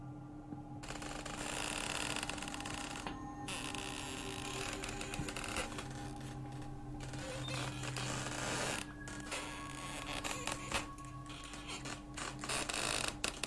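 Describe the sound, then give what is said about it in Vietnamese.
A door slowly slides aside with an eerie, drawn-out creaking grind, a steady continuous scrape that holds for the whole stretch, with a few sharper clicks toward the end. “Cánh cửa từ từ kéo sang một bên, vang lên những tiếng ken két ghê rợn.”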